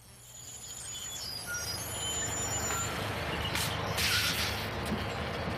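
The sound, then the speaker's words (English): A bus pulling up, its engine a steady low rumble throughout, with bursts of hissing, likely from the air brakes, in the second half. “Is this bus going to Riverdale? Yep, I'm headed that way.”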